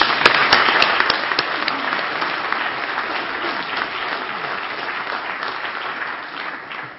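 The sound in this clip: Audience applause welcoming a guest speaker to the evening's gathering: dense, steady clapping from many hands across the whole stretch, easing only slightly toward the end, with no voices above it.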